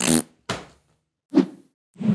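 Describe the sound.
Fart noises made toward a camera to end a video: four short, sharp bursts separated by silence, the first two crisp and brief, the last two lower and fuller.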